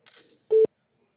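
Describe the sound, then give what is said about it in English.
A voicemail recording tone: one short, loud, steady pure beep, preceded by a faint trailing murmur of voice, then silence. “Can't take your call now. At the tone, please record your message.”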